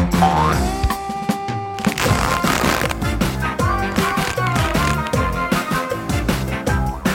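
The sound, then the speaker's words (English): Cartoon boing effects of something bouncing, springy twangs that repeat in a busy rhythm over steady, loud music throughout. “Look, anything can bounce. Well, almost anything.”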